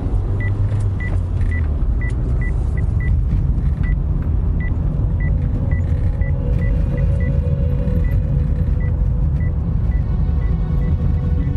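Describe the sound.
A car leaves the highway for the desert at night, its engine and tyres making a loud, steady rumble while short high beeps repeat irregularly above it.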